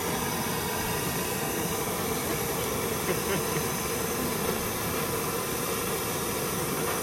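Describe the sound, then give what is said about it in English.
A gas burner used to melt lead roars with a continuous, broad hissing rush that stays steady and loud without a break. “Well, he's got a real magnum burner there, man. It's my firelighter.”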